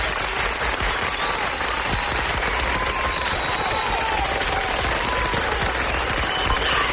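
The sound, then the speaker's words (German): Loud applause offered as tribute to firefighters, a dense, unbroken crackle of many hands clapping that holds steady from start to finish. “Respekt und fetten Applaus.”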